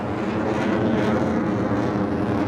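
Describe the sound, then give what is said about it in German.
Eurofighter fighter jets taxiing toward takeoff produce a steady, even roar of jet engines, a continuous broad rushing noise with no distinct separate events. “Der Gestank von verbranntem Kerosin liegt in der Luft, während die Eurofighter zum Start rollen.”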